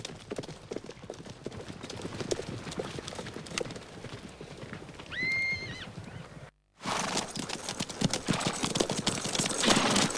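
Hoofbeats of horses ridden through a valley form a rapid clattering gallop, and a horse whinnies partway through. After a brief silent break, the hooves return louder and denser.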